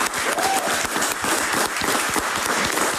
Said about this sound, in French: Mais il est tellement grand qu'on a aussi pu y accueillir un public. Et un public qui sait se faire entendre.